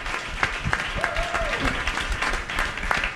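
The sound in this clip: An audience applauds the engineering and promotional staff with steady, dense clapping, while a voice talks over it.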